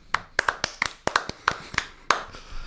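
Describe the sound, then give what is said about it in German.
Scattered applause for four bakery finalists in a Stollen contest, about a dozen sharp, separate claps from a few people in an uneven rhythm, ending in a slightly longer clap. “nochmal, Riesenapplaus für die Bäckerei Dick, die Bäckerei Warnecke, die Bäckerei äh, Dietz und die Bäckerei Zingelmann”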